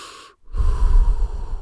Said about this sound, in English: took his first breath weeks later, and it sounded like this